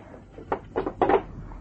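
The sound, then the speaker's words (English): A door closing in a radio drama scene: a few short wooden knocks and clunks in quick succession, moderately loud over a quiet background. “Close the door and come in.”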